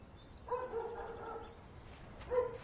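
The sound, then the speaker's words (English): A dog barks faintly in the background: one drawn-out, tonal, whining bark lasting about a second, then a shorter yelp a moment later. “That dog's distracting me.”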